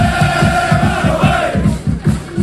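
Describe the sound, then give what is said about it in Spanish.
Rayo Vallecano football fans chant in the streets of Leipzig, a massed crowd of voices singing loudly over a fast, steady pulse of low rhythmic beats. “ambiente de cordialidad absoluta con los seguidores vallecanos. Así suenan a esta hora las calles de Alemania.”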